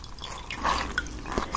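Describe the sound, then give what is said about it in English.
Faint drips of cool water falling from a soft, gentle rag into a bowl: a few light, delicate plinks over a quiet background. “bowl of water with this rag. It's a very soft, gentle rag for your skin. So, I'm going to be using that.”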